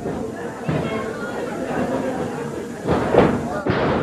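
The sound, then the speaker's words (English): A wrestler is body slammed onto the ring, landing as a heavy thud amid steady crowd noise, with voices talking over the action throughout. “Body slam.”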